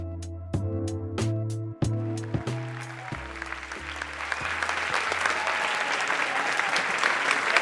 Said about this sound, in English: Standing O at the Directors Guild Theater.